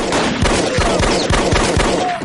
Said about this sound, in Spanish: Luego ve a uno de los hombres del área y le dispara.